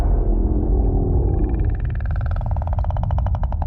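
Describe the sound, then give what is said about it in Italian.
Eerie whale call from a film soundtrack: a steady deep rumble underlies a tonal, wailing cry that turns into a rapid, buzzy pulsing, loud and continuous throughout. “Sembra un alieno più che una balena.”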